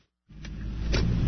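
Low, steady engine and road rumble inside a delivery truck cab, riding through narrow city alleys at night, starting abruptly after a brief silence and holding a constant drone.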